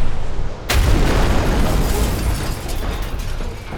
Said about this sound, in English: But what Tormar and I installed were some carefully concealed missile tubes.